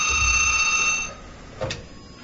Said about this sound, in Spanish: que nos van a echar llamadita. Tenemos llamada